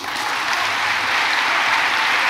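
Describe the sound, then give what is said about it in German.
Dense applause from delegates at a party congress: many hands clap at a steady, even loudness for the whole stretch, with no talk over it. “Unmittelbar setzt der Applaus ein. Die Delegierten springen klatschend von ihren Plätzen auf.”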